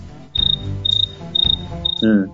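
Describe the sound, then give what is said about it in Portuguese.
Cricket chirping used as a sound effect: four short, high, buzzing chirp bursts, evenly spaced, each with a fast pulsing trill, over a low background hum. “Cara, bota o grilo agora, bota o grilo, bota aquele grilozinho. Cri, cri, cri, cri.”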